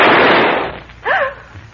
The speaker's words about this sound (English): Who fired that shot?